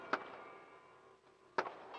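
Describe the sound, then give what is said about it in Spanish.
Two sharp, loud firework rocket bangs burst during a celebration in Vendrell, well over a second apart, over a low, steady background. “se aleja entre los aplausos, los cohetes que crepitan, las campanas que se echan al vuelo, las manos que se agitan por encima de todos los terrados de Vendrell”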